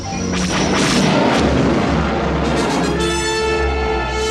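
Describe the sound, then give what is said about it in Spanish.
Starfighter firing at an enemy fighter during a space dogfight: loud, dense blasts and crashing bursts with swooshing noise over a constant roar, continuous throughout. “Luke se pone a la cola del caza que persigue a Bib. Lo encuadra en su pantalla y dispara.”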